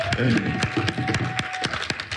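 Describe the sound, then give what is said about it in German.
A church audience gives God a round of applause. Scattered, fairly faint hand claps sound in an uneven rhythm, with a thin sustained tone behind them. “lass uns doch Gott einfach wirklich einen Applaus geben, weil Gott gut ist.”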